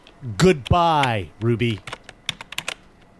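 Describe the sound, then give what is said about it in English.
Someone types on a keyboard while trying to shut off a comms array. A voice speaks first, then a run of sharp, irregular key clicks follows alone. “the sound you're hearing is Henry trying to shut off his comms array and realizing he can't.”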